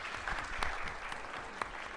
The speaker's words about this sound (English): Let's give the debaters a round of applause.